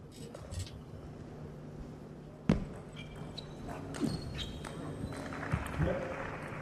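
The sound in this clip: A table tennis ball bounces sharply during a long serve that opens a quarter-final match. A few crisp, separate clicks ring out under steady commentary.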